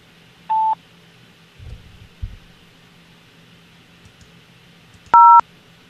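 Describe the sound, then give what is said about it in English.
Telephone keypad dialing tones sound on an automated hold line: two short, clean electronic beeps, one early and one near the end, separated by faint hum and a couple of soft low thumps. “Or dial 0 to remain on hold for the next available representative.”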